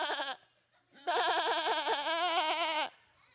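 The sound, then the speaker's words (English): A person's voice imitates a sheep bleating: a short nasal call, a brief pause, then one long, wavering bleat with a rapid tremolo, fairly loud and with nothing else under it. “How does a sheep, what is the sound of a sheep? Yeah, it's going,”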